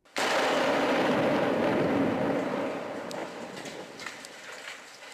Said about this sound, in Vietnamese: Những âm thanh mà quý vị vừa nghe là tiếng bom thùng phát nổ trong vùng ngoại ô Aleppo hồi đầu tháng này.